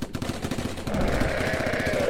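Rapid gunfire aimed at a flying reptile, a fast rattling stream of shots that runs unbroken and grows louder and denser after the first second.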